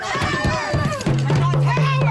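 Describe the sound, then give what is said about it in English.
Angry protesters shout as they swarm the Nova Scotia Premier's car, climbing on it and smashing the windshield. A dense crowd of raised voices and yelling carries on throughout. “Protesters shouting at Nova Scotia Premier Tim Houston as they swarm his car, climbing on top of it, standing in front of it, and smashing the windshield.”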